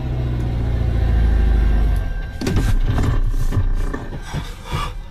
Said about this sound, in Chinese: 就让 A6L 先来挑战一下全场最难的60%坡度， 油门到底。